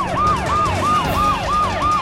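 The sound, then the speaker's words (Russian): Emergency sirens wail from fire engines and ambulances responding to a collapsed apartment block, a loud siren rising and falling in about six quick, even cycles with no talking. “Пожарные едут. И скорые.”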